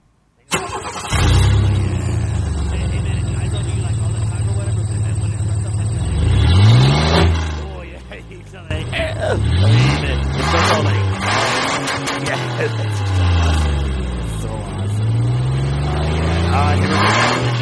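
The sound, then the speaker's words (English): A car engine revs hard after the clutch is popped, its pitch climbing and dropping through several loud surges that run almost unbroken, with one brief dip in the middle. “Hey, we're pulling back in. Oh, shit, I popped the clutch again”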